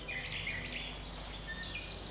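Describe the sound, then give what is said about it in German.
Birdsong from a cassette of forest sounds, faint high chirps and trills running continuously over a steady background hiss. “Weil Balletttanzen aber vor allem Spaß machen soll, legt Steffi danach eine Kassette mit Waldgeräuschen ein.”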